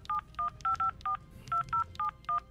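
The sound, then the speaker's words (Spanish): A telephone number dialed on a touch-tone keypad: nine short, bright beeps in an uneven rhythm, some in quick pairs, with a brief gap midway and a low hum beneath. No voices. “Estamos marcando a José.”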